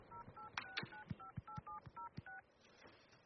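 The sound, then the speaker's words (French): A telephone number is dialled on a keypad: a quick, even run of many short, clear tone beeps, each paired with a faint click, played quietly with no talking. “Alors j'appelle.”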